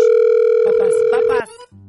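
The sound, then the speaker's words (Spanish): A telephone tone sounds while a call is being dialled. A steady, unbroken pitch runs under someone talking, stops suddenly, and after a brief gap a lower line tone begins. “Vamos a marcarle a ese vato, se llama. Hay que enchufar.”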